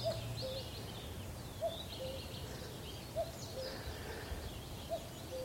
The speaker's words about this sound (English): It's out on the moor. Can't see it. Another cuckoo, same cuckoo.